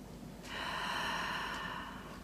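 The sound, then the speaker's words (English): A single deep breath, a soft, airy rush of air lasting about a second that rises and then fades, quiet and alone with no talking. “So we will take another deep breath here.”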